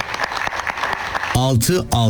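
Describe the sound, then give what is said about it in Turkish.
Applause in a wedding hall where couples marry on the special date 06.06.2026. About a second of rhythmic clapping comes first, then a loud voice cuts in over the clapping. “Güçlü alkış alalım mı şimdi?”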